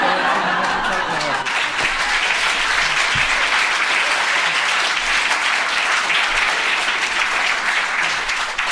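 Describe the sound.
Audience applause, a dense and steady wash of many hands clapping throughout, with some light chuckling and voices mixed in.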